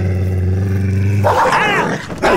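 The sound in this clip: A dog growls aggressively before attacking: a deep, steady rumbling growl that breaks into a higher, wavering snarl, loud throughout with no talking.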